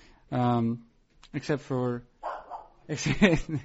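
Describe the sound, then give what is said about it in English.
A dog barks at something down the street, giving a few short, sharp, moderately loud barks separated by brief pauses. “Is that your dog? Yeah, she is not upset, not happy with what's going on down the street.”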